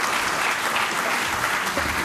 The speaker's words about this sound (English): Huge round of applause for having the courage to get up on stage